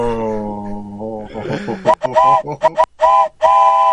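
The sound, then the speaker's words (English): A train horn blasts in a video game, first as a long, steady harmonic tone, then as a string of choppy, loud bursts of varying length, with voices underneath. “Hit that fucking horn, choo choo bitches.”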